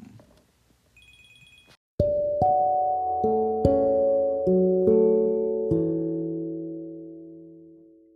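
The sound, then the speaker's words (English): A phone ringing: a few faint electronic beeps, then a ringtone melody of seven bright, chime-like notes, each struck loudly and left ringing so the tones overlap and slowly fade. “yeah, sorry, got a little phone call.”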